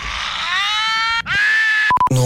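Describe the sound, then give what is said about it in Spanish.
A rock-style scream rings out as a long, loud held vocal note, breaks off briefly, then resumes as a second sustained cry. A few short electronic beeps follow at the end. “Necesito el mejor grito rockero.”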